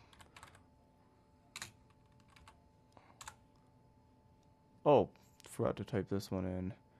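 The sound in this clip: Keys tapping on a computer keyboard: a few scattered, faint clicks, followed by a louder voiced sound near the end.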